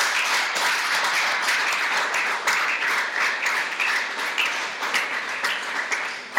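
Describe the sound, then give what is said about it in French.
A church audience applauds during a worship service, a steady wash of many hands clapping at moderate volume that holds throughout with small swells. “Est-ce qu'on peut acclamer le Seigneur pour Dieu?”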